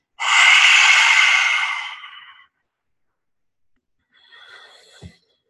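A deep breath exhaled during a guided breathing meditation: one long, loud, breathy exhale that fades over about two seconds. After a pause comes a fainter, shorter breath.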